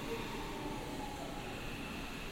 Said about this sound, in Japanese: 電車がやってきましたね。